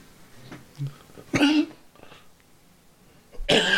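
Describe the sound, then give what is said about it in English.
Coughing to clear phlegm: two harsh, forceful coughs separated by a quiet pause, with faint throat noises before the first. “The phlegm is breaking up because of the Mucinex. Yeah. And it's right here. I just can't get it to dislodge.”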